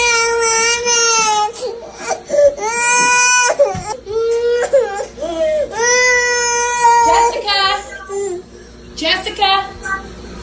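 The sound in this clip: A young child cries loudly during a tantrum, with wailing sobs that waver and break in pitch, coming in long bursts with short gasping pauses between them.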